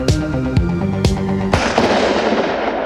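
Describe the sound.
Gunshots ring out: four sharp, loud bangs about half a second apart, each with a ringing tail, followed by a dense crackling wash over a sustained tonal backdrop.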